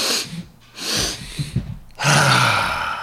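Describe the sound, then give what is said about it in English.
A double inhale and exhale breathing exercise: two short, sharp breaths are drawn in close together, followed after a brief pause by one long, loud, airy exhale that fills the second half. “Let's do three rounds of a double inhale, exhale. Whew, double. Just to, so it goes like this.”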